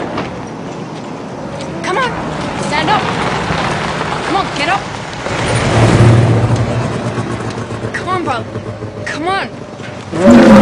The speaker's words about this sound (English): Three off-road vehicles head in their direction.